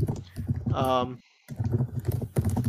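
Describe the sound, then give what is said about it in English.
Someone types on a computer keyboard in quick bursts of clicks while people talk over it. “Let me type in some stuff, because I have feelings about this mob.”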